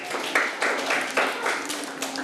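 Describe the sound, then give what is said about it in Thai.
Children clapping together for a classmate who answered correctly in class, a brief, steady burst of group applause. “เก่งมากค่ะปรบมือให้เพื่อนด้วยลูก”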